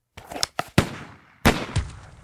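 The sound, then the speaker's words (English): Gunshots ring out as a handful of sharp cracks in irregular succession. Each bang decays quickly. The shots are fairly quiet, with no talk. “you shot him. So I did, darling.”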